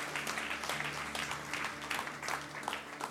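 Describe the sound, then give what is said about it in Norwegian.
Audience applause, a continuous patter of clapping at a moderate level lasting a few seconds over a low, steady hum. “stolt och klappa för dem”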